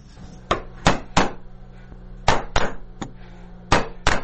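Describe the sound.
A mallet strikes a chisel as a twenty-year-old carves Afghanistan's national emblem into wood in Nuristan, giving about eight sharp, knocking hits in irregular clusters, one softer than the rest, with quiet pauses between.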